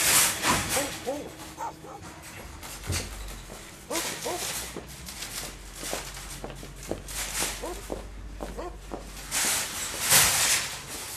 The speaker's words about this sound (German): immer wieder vor Supermärkten die angebundenen bellenden Hunde.